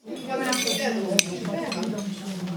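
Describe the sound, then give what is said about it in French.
Clinking of plates and cutlery as diners take their plates at a shared meal of cooked vegetables, light chinks and scrapes with one sharper clink, under continuous conversation. “Chacun prend son assiette.”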